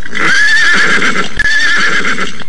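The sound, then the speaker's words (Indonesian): Horses neigh and hooves clip-clop: a loud, drawn-out whinny comes in two long wavering phrases over a steady, noisy background. “Kita pacu kuda-kuda kita ini. Ayo.”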